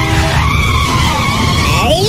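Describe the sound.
A car skids with a loud, sustained tire squeal that holds a steady whining tone throughout, with a shifting edge near the end.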